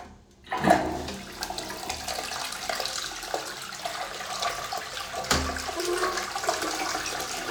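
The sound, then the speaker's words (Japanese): A toilet that is close to clogging with stool flushes. Water starts with a sudden rushing surge, keeps gurgling and swirling steadily, then surges again later. “流れるかな。ほんと詰まりそうながらうんち溜まってるから、一応流してみるね。”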